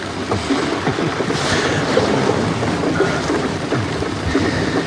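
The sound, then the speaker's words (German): Heavy rain falls steadily, a dense, unbroken hiss with crackling patter and some wind mixed in. It stays loud and even throughout, with no voices. “Zum Glück hat der Regen erst auf den letzten paar Metern eingesetzt.”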